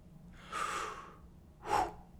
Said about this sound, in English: deep breath, everybody, before we get into this.